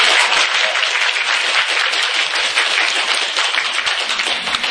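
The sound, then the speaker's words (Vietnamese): An audience claps in support, a dense, steady patter of many hands that holds at an even loudness without a break. “ai ủng hộ thì vỗ tay.”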